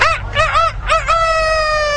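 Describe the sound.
A rooster crowing: a quick series of short arching, rising-and-falling calls, then one long steady held note, clear and alone with no talk.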